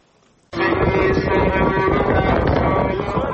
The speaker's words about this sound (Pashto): دوړې او سخت باد چلیږي